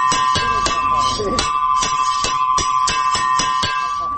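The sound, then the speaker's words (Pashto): School break bell ringing at a school in Lashkar Gah: a loud, continuous electric ring with a steady tone and a rapid, even clatter of strikes that keeps going throughout. “د لشکرګاه ښار د زکرو په نوم په تر ټولو مهم ښوونځي کې د تفریح د زنګ سره جوخت د ټولګیو څخه د راوتونکو زده کوونکو شمېر کم ښکاري”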